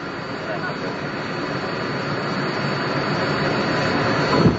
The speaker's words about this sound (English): Quicker and quicker, and now any second we'll be feeling the touchdown, the vibration of the landing.